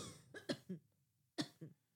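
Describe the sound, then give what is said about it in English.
A few dry coughs in two short bursts, the first with three quick coughs and the second with two, fairly faint with silence between them. “No, I'm going to be coughing throughout the whole thing.”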